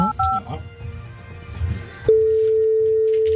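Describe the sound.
A telephone number is dialed with a quick burst of keypad tones, followed by a steady, unbroken ringing tone on the line that holds at an even level to the end.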